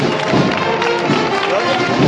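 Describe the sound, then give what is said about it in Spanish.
Townspeople of Jaén clap to cheer on women float-bearers during a Holy Thursday procession. Loud, dense crowd noise mixes with clapping in a busy, continuous roar with no clear pauses. “Y las palmas de, del pueblo de Jaén animando a esas costaleras.”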